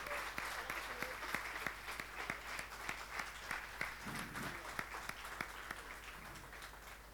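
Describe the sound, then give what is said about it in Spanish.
Applause from an audience at a church service, steady dense clapping held at a fairly low level throughout. “Renovamos el aplauso.”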